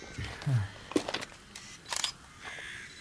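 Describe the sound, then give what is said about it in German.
Camera shutter clicks as photos document a spot where blood stains were scrubbed away: a few faint, sharp clicks spaced irregularly amid quiet background. “Ich halte den Zustand mal fest und mache ein paar Fotos, okay?”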